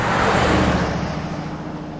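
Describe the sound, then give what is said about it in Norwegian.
A car races along fast toward a farm, its engine and road noise forming a loud, steady rushing roar that eases slightly toward the end. “satt med ansiktet helt inn til frontruten og kjørte som en villmann mot gården i Nils”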